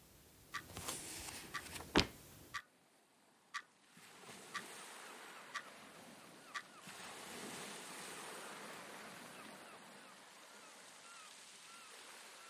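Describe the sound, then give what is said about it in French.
Sea waves wash in a steady, soft surf hiss, with several sharp clicks scattered over the first seconds before the surf continues alone. “Son seul de mer.”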